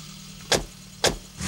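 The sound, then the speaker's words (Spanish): Car sounds: a low engine rumble carries two sharp, loud knocks about half a second apart, then a rising swell of noise at the end. “Bonito coche. ¿Quieres dar un paseo? De acuerdo.”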